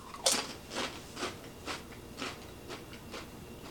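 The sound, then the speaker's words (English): Crunching of Doritos Tapatio tortilla chips during a taste test: a regular series of crisp, dry crunches about every half second, fairly quiet, with no talking over them. “So Doritos Tapatio, here we go. 3, 2, 1, taste test.”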